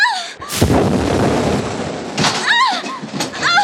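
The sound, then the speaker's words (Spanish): Cannon fire aimed at a boat: a loud booming blast that swells into a long rumbling roar, with shouting voices before and after it. “¡Nos están disparando! ¡Tiene cañones!”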